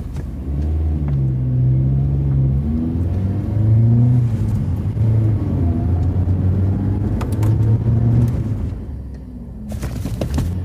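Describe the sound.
A car engine rumbles as the vehicle drives off and turns, making a loud, low, steady drone whose tone gently rises and falls, with a few clicks and knocks scattered over it.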